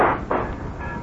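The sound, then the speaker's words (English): A gunshot strikes an empty bottle sitting on a window, giving a sharp, loud crack that is quickly followed by a second burst and then a brief, fading rattle. “Now you don't. Get the point? So you're a good shot when you're fighting an empty bottle.”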